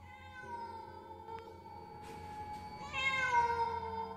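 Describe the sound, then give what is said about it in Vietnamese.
A black cat meows in one long, drawn-out tonal cry that swells louder and brighter toward the end, heard alone. “Đột nhiên có tiếng méo một cái vang lên”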